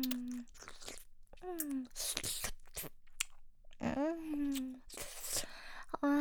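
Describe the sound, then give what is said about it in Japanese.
Wet ASMR mouth sounds of nibbling on an ear: soft smacks, crunchy clicks and moist chewing noises, broken up by a close, breathy voice speaking between bursts. “頭の中いっぱい、あなたのお耳が私のお口になぶられてる音だよ。”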